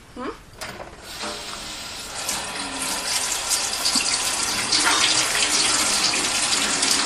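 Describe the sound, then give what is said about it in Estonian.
Tap water runs to water chili plants, a hissing, splashing stream that starts softly and grows gradually louder and fuller as it keeps flowing. “Ui, chili, oota, ma panen chilile vee ära. Paneme chilile vett, chilile ole vett.”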